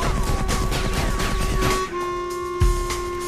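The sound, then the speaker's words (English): Gunfire in the video game Battlefield Heroes comes as a dense, loud, continuous barrage over droning tones, and a sharp impact lands near the end. “No, I'm being shot at.”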